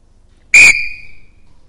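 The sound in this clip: A whistle gives a single short, shrill blast, loud and high-pitched, whose tone trails off in a brief fading ring, heard alone.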